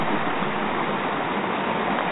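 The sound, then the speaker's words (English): A creek running full after overnight rain in a farm pasture makes a steady, dense rush of water, even and unbroken throughout with no voices. “It rained last night, and the creek is running full.”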